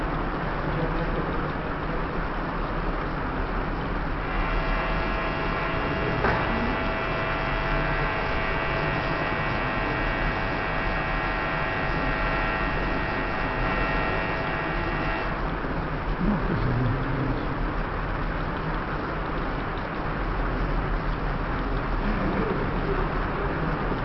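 A generator runs steadily while powering a machine, giving a continuous, even engine drone with a low hum from start to finish. A faint tonal whine rises above it for part of the time.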